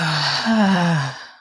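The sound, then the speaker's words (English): A deep held breath let out audibly through the mouth as a single breathy sigh, with a low voiced tone that slowly fades away. “Take a big inhale in and hold it and exhale audibly out of your mouth.”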